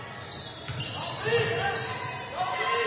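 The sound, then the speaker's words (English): Basketball dribbled with the right hand during a women's game: soft bounces blend into the continuous background, with people talking over them throughout. “With the right-hand dribble.”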